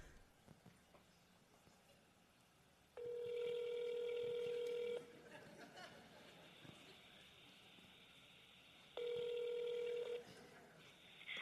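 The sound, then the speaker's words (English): Telephone ringing tone while placing a call to a senator's Washington, D.C. office: two long, steady electronic tone bursts of about two seconds each, separated by a pause, over faint background hiss. “Calling the Washington, D.C. office of Senator Dianne Feinstein.”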